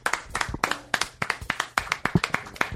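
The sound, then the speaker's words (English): Applause for a comedian at the end of a comedy show: many distinct, crisp hand claps in an irregular, fairly sparse rhythm, as from a modest crowd, with no voices over them. “How about a nice round of applause for Chris Fairbanks?”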